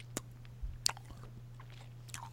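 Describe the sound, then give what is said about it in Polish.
Biting and chewing an effervescent multivitamin tablet: a few faint, sharp crunches spaced irregularly over a low steady hum, with soft mouth sounds between them. “dzięki Balka NS, to zjem na żywo tabletkę musującą i uwaga.”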